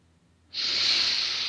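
A single long, airy breath taken during a guided meditation: a steady, loud hiss that starts abruptly and holds for about a second, with no voices.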